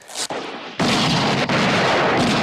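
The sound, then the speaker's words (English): Gunshots fire at a gang of men outside during a western standoff, a few sharp, loud blasts in quick succession, each with a harsh, ringing tail. “Dave takes a shot at Garrett's men”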